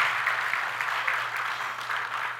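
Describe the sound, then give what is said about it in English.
Applause from a church Bible study group for members celebrating birthdays: a dense, steady patter of many hands clapping that holds at an even level throughout, with no voices. “Let's give them all another round of applause.”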